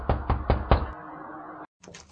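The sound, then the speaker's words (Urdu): Knocking on a door at night: four firm, evenly spaced knocks, then after a short silent gap a quicker, fainter burst of taps. “کسی نے دروازے پر دستک دی”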